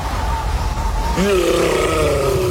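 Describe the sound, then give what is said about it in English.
Monster roar effect of a yeti in a fridge: a deep, growling tonal roar bursts in a little before halfway and holds loudly, wavering in pitch, until the end. “That's the sound of a Yeti in the fridge. Yeah, there's a Yeti in the fridge.”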